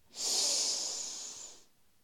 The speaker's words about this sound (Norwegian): Og så gjør vi det enda en gang. Pust godt inn med nesa.